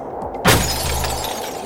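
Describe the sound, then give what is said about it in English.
Window glass smashes under a hammer wrapped in cloth: one sudden sharp crash breaks a quiet moment, then scattering fragments and a bright ringing trail off, fading slowly. “He wrapped the hammer in a piece of cloth so that the noise shouldn't be too loud. As the next large gust of wind blew, he closed his eyes and he smashed the window.”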